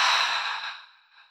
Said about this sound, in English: Take a deep breath in through your nose to smell the rose. And a deep breath out through your mouth.